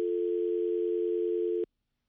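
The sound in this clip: Telephone dial tone after a phone call was cut off: one continuous, steady mid-pitched hum holding level for over a second and a half, then stopping abruptly into silence.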